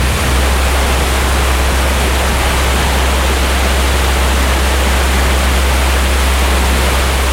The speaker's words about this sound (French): la Saône, bah, il faut quand même qu'elle fasse passer la même quantité d'eau. Donc, l'eau, elle va aller plus vite.